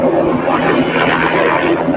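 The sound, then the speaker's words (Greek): A private Bell helicopter drones loudly with a steady, dense engine and rotor roar as it spins in the air seconds before crashing. “Το μοιραίο ιδιωτικό ελικόπτερο τύπου Bell αρχίζει να περιστρέφεται στον αέρα δευτερόλεπτα πριν συντριβή, οδηγώντας στο θάνατο τον Έλληνα χειριστή του και ζευγάρι Βρετανών.”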